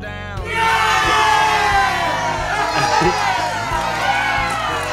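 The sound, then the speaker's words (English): A studio audience cheers, a sudden swell of shouts and whoops rising after a brief quiet start, then staying loud and dense throughout with a busy, lively texture. “Studio audience loves that sentiment.”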